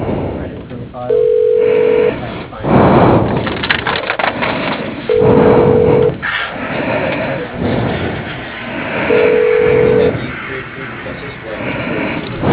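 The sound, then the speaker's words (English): Telephone ringback tone heard while a call is being transferred: three steady ring tones, each about a second long and spaced roughly four seconds apart, over a noisy, busy background. “Please hold while I transfer you to John Clough.”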